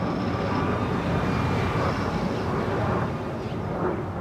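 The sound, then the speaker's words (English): An aircraft flies overhead after departing Sky Harbor airport above a busy urban core. Its broad, steady roar stays loud throughout, with faint shifting whines on top. “Aircraft flying out of Sky Harbor.”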